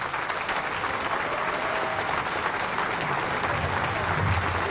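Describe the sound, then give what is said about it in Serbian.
Thunderous applause from a packed open-air summer stage greets the opening of a film festival, a dense, steady roar of many hands clapping at an even level throughout. “Prepuna letnja pozornica pozdravila je gromoglasnim aplauzom našu filmsku i muzičku legendu Snežanu Savić, koja je otvorila ovaj festival.”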